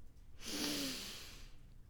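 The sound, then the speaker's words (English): One deep breath drawn in: a soft, airy rush that swells and fades over about a second, with no talk around it. “Inhale,”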